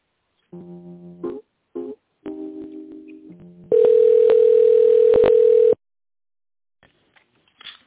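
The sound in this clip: Telephone tones sound over a phone line while a call is being dialed. A few short beeps at shifting pitches come first, then a loud, steady tone holds for about two seconds, broken by faint clicks, before the line goes quiet.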